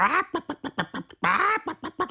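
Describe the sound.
A voice imitates a white hen clucking: a fast, rhythmic run of many short, nasal clucks, with two longer drawn-out calls, one at the start and one in the middle.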